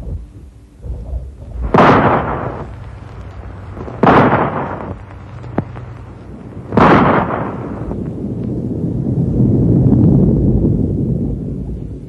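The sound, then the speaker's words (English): Rifle shots fired to knock loose snow in the mountains to set off an avalanche: three loud, sharp cracks a few seconds apart, each with a ringing tail, followed by a low rumble that swells steadily. “Rifle shot? Right. Now watch.”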